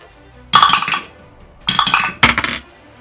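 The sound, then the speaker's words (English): Dice rolling on a table during a tabletop role-playing game give three bursts of bright clattering rattles, the first longest and the last two close together, with quiet between them. “I'm gonna use a luck. That is a nat 20. Dang, man. Ooh, I needed it. I used a luck point to roll a second die here”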